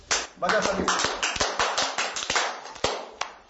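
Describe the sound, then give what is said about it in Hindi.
Children in a third-grade class clapping for their teacher: many sharp, ragged handclaps in an uneven patter, with a voice near the start and the claps thinning out toward the end. “तो सार जी के लिए ताली बजाओ, जोर से सभी ताली बजाओ, सार के लिए ताली बजाओ। काम हुआ, ताली जोर से बजाओ,”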